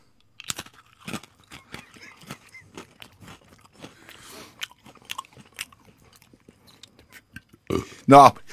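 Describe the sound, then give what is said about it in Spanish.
Someone eats a cookie, producing many irregular dry crunches and chewing clicks of varying loudness, ending in a louder, voiced burst. “Haga de cuenta que usted se va a terminar de comer una galletita gracias a otro servicio de Radio 10”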